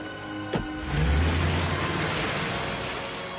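Taxi cab driving off: a single sharp knock, then a low engine rumble that swells quickly and holds steady as the car pulls away, with no voices.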